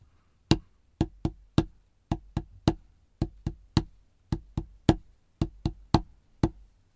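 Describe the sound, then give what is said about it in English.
Seventeen sharp, dry taps in the rhythm of a dactylic hexameter: each heavier beat is followed by two quicker ones, repeated five times, and the line ends on a shorter final pair. The taps sound alone against silence. “As you can hear, this is one long beat followed by two short beats. A true dactylic hexameter will be made up of 6 units, or feet, based on this rhythm.”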